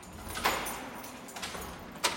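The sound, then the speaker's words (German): A narrow door secured with a thick metal grille is opened in the medieval part of a castle. A few faint metallic clicks and rattles sound over quiet background, and the sharpest one comes at the end. “öffnet eine schmale Tür, gut gesichert mit einem dicken Metallgitter.”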